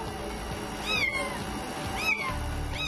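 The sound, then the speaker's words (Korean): A cat meows from behind a wall in a few drawn-out cries spaced about a second apart, each rising and falling in pitch. The last is cut off at the end, over a steady low background hum. “가까이 다가가니 고양이 울음소리가 더 선명하게 들리는데요.”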